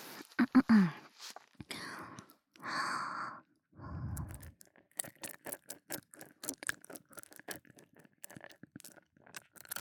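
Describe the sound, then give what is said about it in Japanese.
Loud breathing through the nose is captured close to the microphone during licking sounds. A few long, breathy exhales come first, then a quick run of short, wet clicking sounds at a steady volume. “鼻息がすごいうるさい気がする。”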